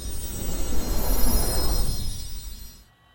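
Airplane taking off from a runway, a broad, steady engine roar that swells, holds loud, then fades away to near silence in the final moments.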